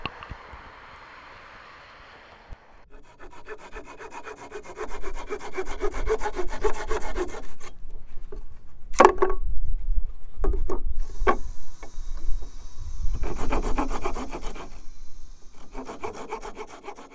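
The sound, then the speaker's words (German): Steady rhythmic sawing of wood as stage props are being built. Rasping strokes start after a quieter opening and continue with a few sharp knocks along the way. “Ja, ich bin jetzt hier vor Ort und hier wird gerade ganz fleißig schon gebaut. Ich nehme an, das sind alles Requisiten für den Hörspaziergang.”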